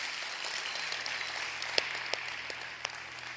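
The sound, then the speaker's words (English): A church audience applauds in a soft, even patter, with a few sharper claps standing out near the end. “Can we just put our hands together and welcome people into God's family today?”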